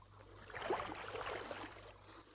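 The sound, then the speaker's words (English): Water laps softly against a ship's hull at night beside a burning ship, a faint, smooth wash that swells and recedes over a couple of seconds with no voices. “The water laps against her hull, and down in the engine room, the heavy machinery is still.”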